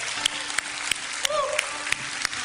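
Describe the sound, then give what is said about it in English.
Audience applause at a church service, with a steady wash of crowd clapping marked by sharp, evenly spaced claps and a brief voice over the noise. “Would you give them a round of applause? Appreciation.”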